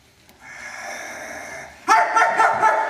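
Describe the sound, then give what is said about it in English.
A voice imitates an annoying dog's bark: a few rapid, snorting bark bursts near the end, after a sustained breathy hum. “not loud like that, just that annoying bark that we all want to squeeze and kill.”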